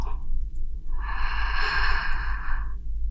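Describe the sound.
A single slow, breathy inhalation taken during an ear-licking relaxation session, soft and steady for about two seconds, over a constant low hum.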